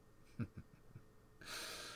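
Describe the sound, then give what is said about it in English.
A frightened girl takes soft, nervous gasping breaths: several quick, faint intakes, then a longer, steady breathy rush. “You keep breathing like that, girl, in soft, frightened, nervous gasps.”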